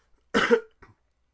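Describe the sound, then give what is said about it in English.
One sharp, loud human cough followed by a much fainter short throaty catch, then silence. “Cut out that cough, okay?”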